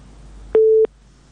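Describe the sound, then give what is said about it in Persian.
A telephone busy signal sounds after a call-in listener's line drops: one short, steady mid-pitched electronic tone, starting and stopping abruptly against a quiet background. “بله، تماس شنوندی ما را از دست دادیم.”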